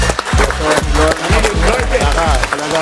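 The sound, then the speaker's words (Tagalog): An audience at a show premiere applauds and cheers for the guest, loud and continuous, over a steady thumping beat. “At sa bago ang lahat, siguro dapat palakpakan at pasalamatan natin ang ating guest.”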